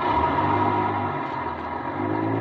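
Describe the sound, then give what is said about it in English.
A bus engine drones as the bus pulls out, a steady mid-pitched hum with a low rumble that holds at a fairly even level throughout, heard alone with no voices. “I ducked behind a post and waited. Waited until the bus pulled out.”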